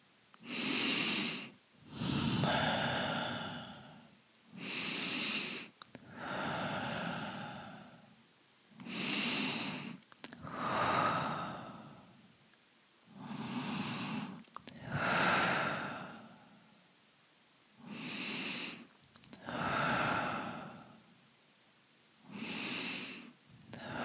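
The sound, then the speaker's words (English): Slow, deep cleansing breaths, drawn in through the nose and let out through the mouth. Each airy, hissing breath swells and fades in a calm, even rhythm, many in a row, fairly soft and alone. “in through your nose and out through your mouth, cleansing breaths.”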